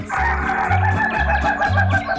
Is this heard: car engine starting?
no